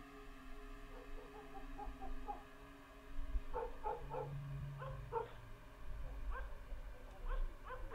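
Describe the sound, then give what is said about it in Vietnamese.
Village dogs bark in many short, yelping bursts that come in clusters. The barking is faint against a steady low background hum. “Chó ở trong thôn bắt đầu gằn lên mà sủa nhấm nha nhấm nhẳng.”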